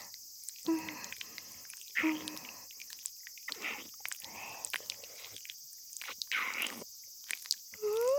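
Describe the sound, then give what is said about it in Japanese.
Wet licking and smacking mouth noises as someone tastes a piece of candy, soft intermittent slurps and clicks broken by short quiet pauses. “舐め応えがあるよね。もう一回だけ味見しようっと。”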